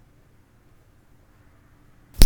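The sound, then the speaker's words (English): A single short puff from an asthma inhaler, a sharp burst of hiss after near silence. “Sorry, I had to take a hit off the old inhaler.”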